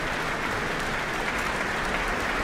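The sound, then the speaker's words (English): Applause from the Auckland Town Hall audience for the orchestra after a performance, steady and evenly sustained clapping at a moderate, fairly quiet level. “And the musicians stand and take in the applause here from the Auckland Town Hall audience and then retake their seats as their conductor bounds from the stage.”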